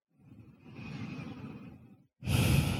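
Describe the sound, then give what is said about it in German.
Slow breathing in a guided meditation: one long, soft breath of about two seconds, then after a brief pause a louder, breathier one that runs to the end. “Atme ein und aus.”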